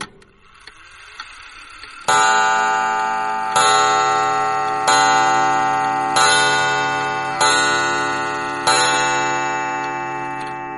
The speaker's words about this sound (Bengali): ঘুমটা ভাঙল একটা শব্দে, ঘড়ির শব্দ।